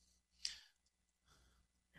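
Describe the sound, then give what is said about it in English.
Soft breathing, with two faint airy breaths separated by a short gap and a brief click-like onset on the first. Nothing else is heard. “I do hear a breath there”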